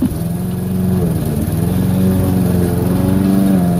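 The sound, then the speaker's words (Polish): A lawn mower runs continuously, its engine giving a loud, steady buzzing drone with a slight wavering in pitch and no pauses. “O, dzisiaj kosiarka poszła w ruch, a jutro podejrzewam gryl.”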